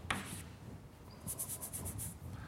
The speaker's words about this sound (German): Aber jetzt schreibe ich mal ein phi hin.